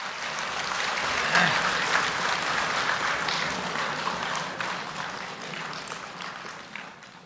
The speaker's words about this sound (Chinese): 谢谢您的掌声。